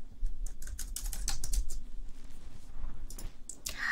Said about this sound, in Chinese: 什么噼里啪啦的敲键盘？